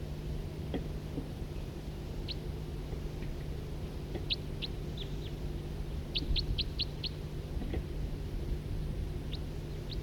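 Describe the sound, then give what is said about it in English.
Two birds call with two different call types, mostly brief, high chirps scattered across the stretch, including a quick run of several in a row, all faint against a steady low hum. “Couple birds here, one of two different, each of two different call types.”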